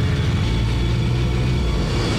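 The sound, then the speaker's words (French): Roar of police motorcycles at full throttle during a night chase through the Bois de Boulogne, a loud, steady low engine drone that holds without pause throughout. “Les motards lancés à pleine vitesse dépassent les véhicules de la BAC.”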